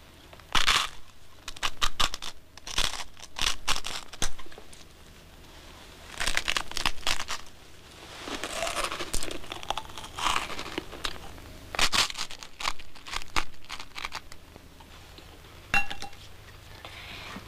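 Crisp crunching and crackling of a dry rusk being bitten and chewed, in many irregular bursts with light clinks of glass or dishes among them and no talk.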